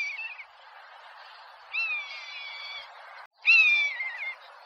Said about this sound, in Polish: To chyba najchętniej odzywający się ptak drapieżny, jeśli chodzi o Polskę, znany z przeciągłego okrzyku, można tak to nazwać, lekko opadającego, który niesie się daleko, daleko.